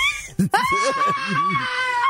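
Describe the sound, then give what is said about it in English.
A group of people screams together in a stress-relief session, with high, strained, wavering voices overlapping and sustained, and a brief sharp break near the start. “This guy's trying to do an interview, and there's just a half the group of them is still screaming behind him.”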